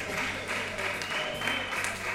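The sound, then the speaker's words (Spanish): Applause from a live audience at an auditorium event, a steady wash of many hands clapping at an even, moderate level throughout, with a few voices mixed in underneath. “Un fuerte aplauso. Sí, por favor, un fuerte aplauso, que se escuche en vivo.”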